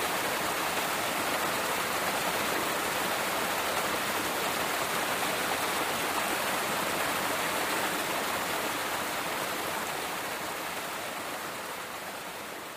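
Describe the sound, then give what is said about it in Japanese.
Heavy rain pours down in a forest, a dense, steady hiss of downpour that stays loud and unbroken and eases only slightly near the end. “紫の雲が空を覆って土砂降りの雨が降り始めました。”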